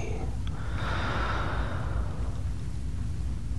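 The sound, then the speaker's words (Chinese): Deep breathing during a guided relaxation exercise: a long, soft, airy rush of breath, steady and unhurried, heard alone with no talking. “深深的吸一口气，停住，吐气，吸气，”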